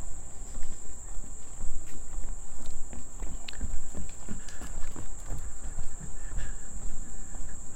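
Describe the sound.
Running footsteps during a 5K race: many quick footfalls in a steady, even rhythm, with a continuous high insect-like chirring throughout.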